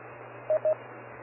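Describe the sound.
Two short, identical electronic beeps in quick succession near the start of a ham radio transmission, over a steady radio hiss and a low hum.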